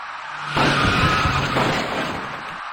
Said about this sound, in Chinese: 他跟一辆行驶在其左侧的深色小客发生了剐撞事故